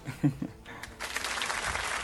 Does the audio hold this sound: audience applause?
yes